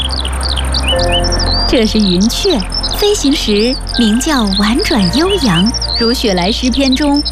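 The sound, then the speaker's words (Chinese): A yellow-breasted bunting sings among reeds beside the Grand Canal, a loud, bright, crisp run of quick chirping phrases that repeats throughout. Faint steady background noise sits beneath it. “这是黄胸鹀，叫声清脆明快，深受大家喜爱。”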